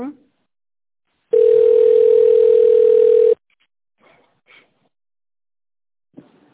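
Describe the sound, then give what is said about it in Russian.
A telephone tone sounds while a call is transferred: a single steady, loud, mid-pitched tone holds for about two seconds and then cuts off, leaving near silence broken only by faint brief noises. “давайте сейчас переведу на девушку Наталья”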